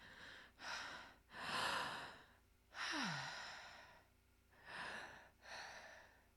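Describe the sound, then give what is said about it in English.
Deep breaths taken by a person, five soft, airy breaths in a slow, uneven rhythm, quiet and alone, one of them carrying a brief falling voiced sigh. “Deep breath.”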